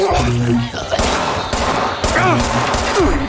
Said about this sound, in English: Well, they're shooting past me, so that's nice.